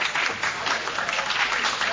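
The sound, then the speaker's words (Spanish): A standing audience applauds as the mayor arrives at a public gathering. The clapping is dense and continuous with an even loudness throughout, and no talk cuts through it. “Gracias. Muchas gracias. Gracias por sus aplausos.”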